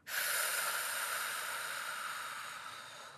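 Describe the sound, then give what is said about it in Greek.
A long breath is blown out through the mouth with lightly pursed lips during a deep abdominal breathing exercise, a steady airy hiss that starts abruptly and slowly fades over about three seconds. “και η εκπνοή θα γίνει από το στόμα με ελαφρά σφιγμένα χείλια. Βαθιά εισπνοή, εκπνοή”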